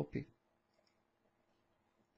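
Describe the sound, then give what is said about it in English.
Computer mouse button clicking, right button pressed after selecting text: two quick, crisp clicks at the start, followed by near silence. “So I'm going to just mark it, all the text here, with the left mouse button. Just drag it, and then click the right button and”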